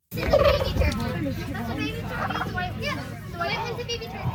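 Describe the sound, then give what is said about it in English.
Turkeys gobble in rapid, rough bursts among poultry at a costume contest at a country fair in Moore, Saskatchewan, under a dense, loud crowd babble that runs through the whole stretch. “Chickens, ducks, and turkeys took part in a recent poultry costume contest as part of the Moore's Museum Country Fair.”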